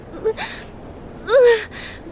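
A deep breath is drawn in and let out, with breathy bursts of air and a soft voiced sigh, alone and fairly quiet.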